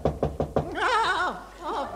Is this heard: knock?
yes